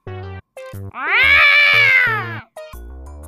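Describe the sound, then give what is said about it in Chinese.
A large ginger cat gives one long, drawn-out meow that rises and holds before trailing off. Short musical notes sound before and after it. “直到听到一声叫唤，一只大黄猫闯入视野。”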